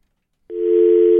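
A steady telephone dial tone on a call-in line, a single continuous mid-pitched tone that starts abruptly after a brief silence and holds loud and unbroken to the end.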